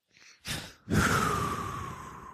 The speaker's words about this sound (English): All right, take a deep breath.